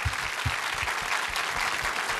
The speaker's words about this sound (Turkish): O güzel alkışlarınız